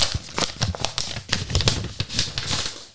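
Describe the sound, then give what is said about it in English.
A paper envelope is opened with a quick burst of crinkling and rustling paper, many rapid crackles in an uneven rhythm. “What do we have? In my hand. Mm-hmm. Is an envelope. What's inside the envelope? Containing details of the new merchandise designs.”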